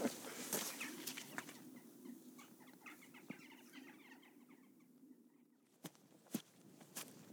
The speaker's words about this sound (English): Okay, we'll gain a bit of height. We'll get warmed up walking.